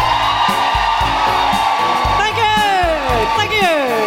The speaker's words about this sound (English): Put your hands together. And make incredible guilty feminists welcoming woohooing noises for Nuala McKeever.